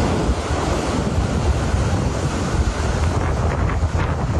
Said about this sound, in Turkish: Cadde ve sokaklar suyla doldu. Araçlar suya gömüldü. Ev ve iş yerlerinde su baskınları yaşandı. Sağanak ve fırtına birçok noktada etkili oldu.